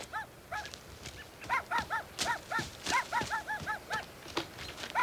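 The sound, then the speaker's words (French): Dogs bark in the woods, a long run of many sharp, fairly loud barks in an uneven rhythm. No one speaks. “il y a des chiens ici. Tu sais comment j'ai peur de ça? Mais surtout que dans le bois de même, ça doit être des chiens.”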